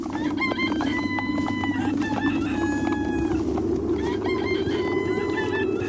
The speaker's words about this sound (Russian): Пели петухи, и было уже светло, как достигли они Жадрина.